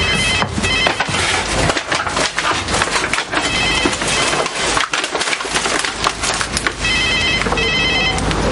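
A telephone rings in a few short electronic bursts in a home kitchen, heard over a constant dense crackling, splintering noise that fills the whole clip.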